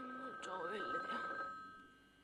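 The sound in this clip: A telephone rings with a steady, faint electronic tone that sits under talking voices and fades toward the end.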